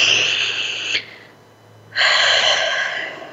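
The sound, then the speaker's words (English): Two big breaths, each a long airy rush of breathing, separated by a short quiet pause, fairly loud and with no voices. “Take another big breath.”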